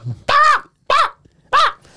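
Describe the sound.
A person imitates a dog barking with three loud, short, voiced woofs, evenly spaced and with no other sound between them.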